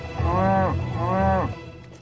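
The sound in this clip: Cattle mooing: two long, low, drawn-out moos in succession, rich in harmonics, with a brief gap between them and near silence after.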